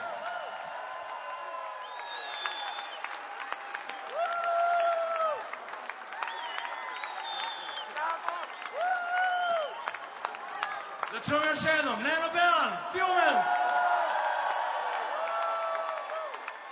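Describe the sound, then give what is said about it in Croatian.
Audience applause and cheering for the Radio 202 station: rapid clapping swells and fades, with crowd whoops and voices calling and talking over it. “I još jedan put velike čestitke Radio 202. Jedan veliki aplauz za njih.”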